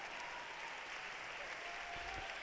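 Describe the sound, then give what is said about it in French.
An assembly in the Aula Magna applauds after the pope's historic visit, a faint but continuous spread of many hands clapping that stays even throughout. “L'Assemblée qui applaudit après cette visite historique.”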